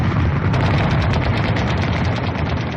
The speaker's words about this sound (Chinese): 他关掉了收音机，但激烈的枪声依旧。铁院长终于确信枪声来自于山上